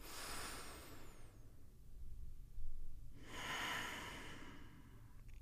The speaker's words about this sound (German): Achte einfach darauf, wie es sich anfühlt, tief ein- und auszuatmen. Und noch einen tiefen Atemzug.